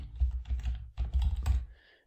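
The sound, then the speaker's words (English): Rapid keystrokes on a computer keyboard as a search term is typed, loud clicks in a few quick bursts with a short pause midway, then trailing off into quiet. “So what we're going to do is I'm going to type in meditation”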